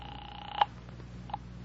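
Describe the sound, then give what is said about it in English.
A telephone call placed from a phone booth: a faint steady tone hums, then cuts off with a click, followed by a few soft clicks and a short beep near the end. “I went back to the phone booth and called Dr. Reichel's home.”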